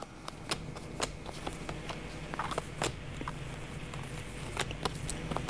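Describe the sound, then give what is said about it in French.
Cards being drawn from a deck and handled: many short, crisp papery snaps and slides at an even, unhurried pace, with no talk. “Donc je vais encore juste tirer quelques cartes.”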